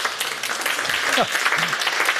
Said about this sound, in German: Vielen Dank, der Applaus für Sie.